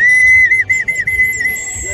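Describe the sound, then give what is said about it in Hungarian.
A folk whistle from a table of assorted whistles at a festival is blown, giving a loud, shrill, sustained high tone. Its pitch wavers and dips in quick warbling flutters for about two seconds. “mindenféle síp van az asztalon, és tényleg érdemes idejönni. Na, egyet azért én is kipróbálok. Hallgassák csak!”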